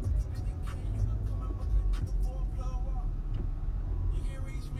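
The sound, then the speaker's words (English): Low steady engine rumble of a car driving along a city street in San Francisco, with road noise and a few brief higher sounds scattered over it. “I'm driving past what used to be the Tower Records here in San Francisco”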